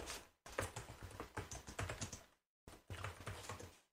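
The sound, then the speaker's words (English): Faint, rapid typing on a computer keyboard as someone enters a search for movies of 1988. Dense clusters of keystrokes run in two bursts separated by a brief pause. “So type in movies of 1988.”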